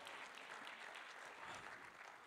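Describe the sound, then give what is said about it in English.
Church audience applauding in a worship service, a soft, continuous patter of many hands at an even level throughout. “If you believe it's coming, give the Lord a big round of applause in this place.”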